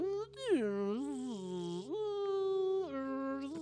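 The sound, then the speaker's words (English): A device gives off a faint, buzzing electronic hum. Its tone wavers, dipping low and swinging back up several times with a rich, reedy, almost voice-like quality. “the sound that's coming from the device, it starts to get clearer and clearer. And so what first sounds like just humming and buzzing, like”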